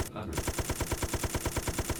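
Rapid automatic gunfire from a video game weapon with near-unlimited ammo, fired at a herd of weak enemies: a loud, continuous stream of many evenly spaced shots without a pause.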